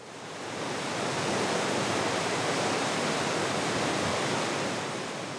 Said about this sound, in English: That's the sound of the Arkansas River rushing under the Garrison Avenue Bridge between Fort Smith and Oklahoma.